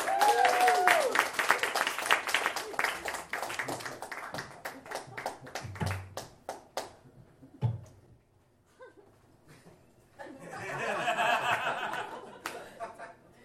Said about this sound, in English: Everyone, please put your hands together for Jake James.